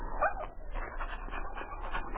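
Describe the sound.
A sled team's lead dog whimpers after cutting its foot, bleeding and hopping on three legs; thin, high whines rise briefly over a steady, noisy background.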